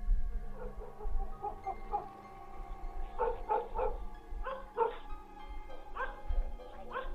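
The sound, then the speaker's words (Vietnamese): A neighbour's dog barks and yips in a rapid, excited run of short bursts that come in a few tight clusters, fairly loud over a low, steady rumble, with no talk. “Đúng lúc chó của nhà hàng xóm chẳng hiểu làm sao cắn lên rộn ràng.”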